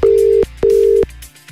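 A telephone call being placed: two long, steady, low-pitched beeps of a ringing tone, each with a short pause after it, loud and alone.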